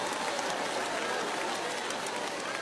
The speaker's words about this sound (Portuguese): Olha que barulhão, meu Jesus. Meu Deus do céu, que barulho desse, meu Pai, que barulhão. É o glória a Deus do povo.